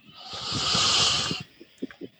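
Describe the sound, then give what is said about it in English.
A big deep breath is taken during a self-help tapping exercise: one long, airy, hissing breath swells and fades over more than a second, then a few faint, soft sounds follow. “Big deep breath.”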